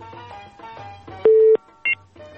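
Telephone dialing tones sound as a radio call-in connects. A longer steady beep is followed by a short, higher beep, both standing out over a quieter tonal background.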